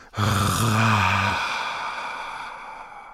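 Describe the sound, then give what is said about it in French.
A deep breath exhaled through the mouth during a guided breathing exercise. It opens with a brief voiced, sigh-like tone, then trails off into a long, breathy fade. “Allez jusqu'au bout du souffle par la bouche, de nouveau. Inspirez, remplissez la partie haute de votre système digestif d'air et expirez.”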